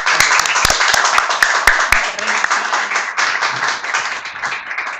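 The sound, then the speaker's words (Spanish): Audience applause at a live poetry and literature event: a dense, loud wash of clapping that holds steady throughout, with a few sharper individual claps in the first two seconds and faint voices beneath. “Facundo Martínez, fuerte el aplauso.”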